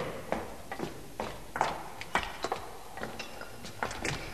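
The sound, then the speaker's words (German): Footsteps hurry quietly down a staircase as a rapid series of soft, fairly even taps, many in quick succession with no talking. “Komm, komm durch diese Tür hier. Vielleicht bemerkt uns niemand. Hier sind keine Vampire. Schnell die Treppe runter, aber leise.”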